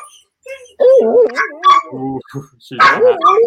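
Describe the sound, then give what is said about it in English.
A dog barks, yips and whines in a loud, uneven run of sharp calls and higher whimpers, with brief pauses between bursts. “So, sorry about the dog.”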